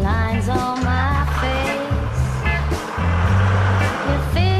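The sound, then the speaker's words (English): A mail van pulling away, its loud engine climbing in pitch, then dropping and climbing again through a few gear changes. “The mail van drives off.”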